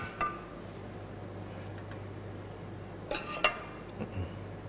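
Pork and its juices are stirred into a cooking pot, giving a few faint metallic clinks and scrapes of a utensil against the pot, scattered in small clusters over a low steady hum.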